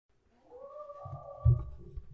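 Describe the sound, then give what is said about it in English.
A skeleton cat creature gives a drawn-out, wavering yowl, a fairly faint moaning tone. Low rumbling thuds sound beneath it around the middle. “The hell was that? That's terrifying. That's the cat skeleton.”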